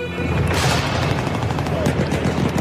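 Dense enemy gunfire, a loud continuous fusillade of overlapping shots and cracks with no break over the whole stretch.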